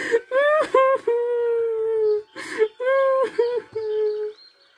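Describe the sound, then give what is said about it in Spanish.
Young girl crying in a few wavering, whimpering wails and sobs with a high, tonal quality, separated by short breaks. “Cuando de repente no había rastros de sus padres y la pequeña Gretel empezó a llorar.”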